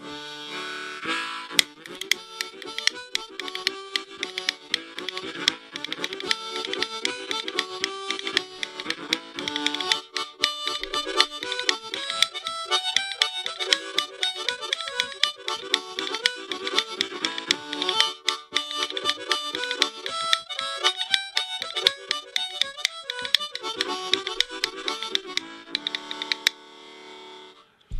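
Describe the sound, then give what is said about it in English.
Harmonica melody with rhythm bones of cow rib clicking along. Reedy sustained chords and runs go on steadily, over a constant patter of sharp clicks that holds the beat throughout. “Like, I've got a harmonica here, and let me just show you what that sounds like.”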